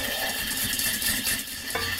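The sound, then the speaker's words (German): Vigorous stirring of baking soda powder into an oil mixture for homemade deodorant, a steady, continuous scraping and swishing that runs without pause and with no voices. “Also dieses Pülverchen, das kommt jetzt gleich rein in unser Ölgemisch und wird dann kräftig gerührt.”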